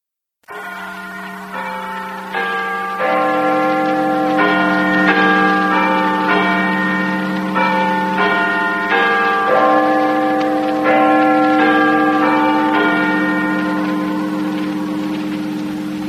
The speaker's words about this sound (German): Guten Abend, hier ist der Londoner Rundfunk. Big Ben hat 8 Uhr geschlagen.